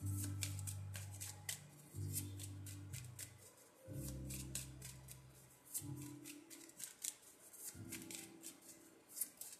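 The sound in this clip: Shuffling of a separate deck of playing cards: many quick, crisp riffling flicks and papery snaps in an uneven flow that runs through the whole clip, with a low steady drone beneath.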